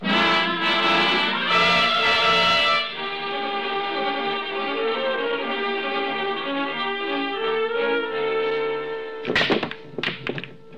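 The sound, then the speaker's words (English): Billiard balls crack apart on the break in a game of pool: a short burst of sharp clacks near the end, after a long stretch of music. “Lucky shot, Mr. Dollar. You got two on the break.”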